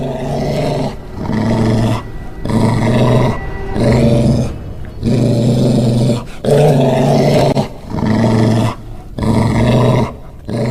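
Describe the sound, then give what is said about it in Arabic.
Deep, loud dog growling for a radio horror drama effect, rumbling in a series of sustained snarling phrases separated by brief pauses, with no other sounds. “بدأت أسمع صوت زي صوت كلب ورايا. واضح إن الصوت الكلب اللي ورايا إنه كلب كلب يعني.”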